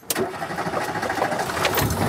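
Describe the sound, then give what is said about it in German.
A Renault 4's engine runs at a fan meeting in the Spessart, giving a steady, throbbing mechanical chug with a quick sharp burst at the outset. “Der Renault 4. Eine Leidenschaft auf zwei Achsen und vier Rädern.”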